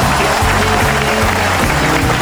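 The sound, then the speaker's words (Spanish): Applause on a live radio show, a brief, steady burst of dense clapping that stays loud and even for about two seconds. “Aplausos en casa, por favor.”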